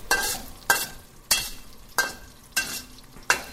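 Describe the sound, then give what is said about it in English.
Sichuan peppercorns and whole dried chilies stir-fried quickly in hot oil with garlic: six crisp scraping bursts of sizzling and stirring come at a steady rhythm over a low, continuous fry. “A little bit of Sichuan peppercorn. Whole. And some whole dried chilies. Move that around pretty quickly.”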